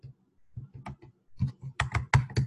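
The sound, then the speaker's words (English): Typing on a computer keyboard: a short, irregular burst of about a dozen quick key presses, louder toward the end, with no talk. “I think I typed it in a little funny.”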